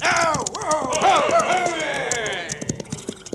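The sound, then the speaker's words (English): Clip-clop of a posse of horses riding past on a canyon trail: steady, rapid hoofbeats run throughout beneath loud voices. “Yeah, that's what they done, Duke. Rode right past.”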